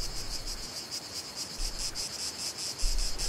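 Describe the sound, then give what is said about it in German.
Cicadas chirping outdoors in France: a loud, high-pitched, steadily pulsing buzz with a regular rhythm that runs throughout, with no voices. “Hört ihr den Wind? Hört ihr die Zikaden?”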